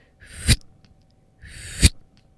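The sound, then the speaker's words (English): Two short, quick breathy blows made by mouth imitate the fast hummingbird-style blow of hapé snuff. Each is a rising hiss that ends in a sharp, forceful puff, heard alone with a pause between them. “So it's a short and quick blow. So it kind of sounds like this.”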